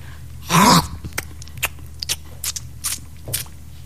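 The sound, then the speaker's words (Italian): Someone eating something: one loud, crunching bite, then many short, sharp chewing clicks spaced irregularly over a quiet background. “Scusate, ma quando parlo di politica devo sempre mangiare qualcosa.”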